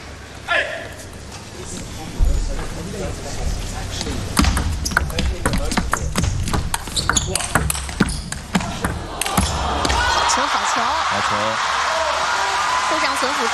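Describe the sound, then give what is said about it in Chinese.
Table tennis ball in a rally after a forehand serve from the middle, heard as many sharp, light taps in quick, irregular succession with a voice talking throughout. “护上损斧也是变了一个发球，站在中间正手发了。”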